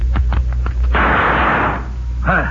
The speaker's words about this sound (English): That was nice shooting